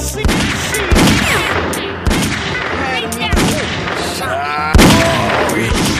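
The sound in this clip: Video game gunfire: several sharp, loud shots crack at irregular intervals over continuous game sounds, while a player talks excitedly throughout.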